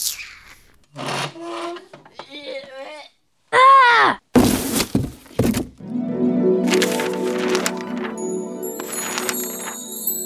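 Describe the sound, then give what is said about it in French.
Groaning, creaking sounds lead into a bookcase collapsing in a few loud wooden crashes and thuds, followed by a sustained ringing drone with scraping textures. “La bibliothèque s'est effondrée, les contes se sont mélangés, les personnages ont disparu.”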